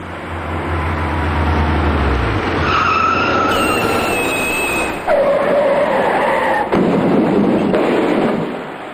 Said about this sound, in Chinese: 加上此处路段属于主路的下坡处，以及雨天道路湿滑，这辆大货车随即失控